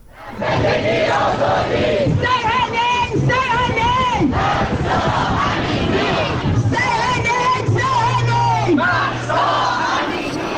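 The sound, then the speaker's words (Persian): Crowd of protesters in London chanting slogans in support of Mahsa Amini and the Woman, Life, Freedom movement, with many voices shouting repeated phrases in unison, loud and sustained throughout. “این صدای گروهی از معترضان در لندن است که در حمایت از مهسا امینی و جنبش زن، زندگی آزادی شعار می‌دهند.”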